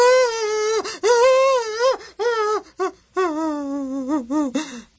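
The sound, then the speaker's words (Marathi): Loud mournful wailing and crying over a death: a single voice rises and breaks in long, quavering sobbing wails, split into several phrases by short gasping pauses. “हे रडणं चालायचंच मरणामुळे.”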